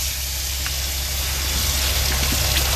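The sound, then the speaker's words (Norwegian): Running water pours steadily over green grapes being rinsed, a continuous, even hiss of flowing water with no talk. “Rasker jeg med meg de grønne, bare skylle dem godt.”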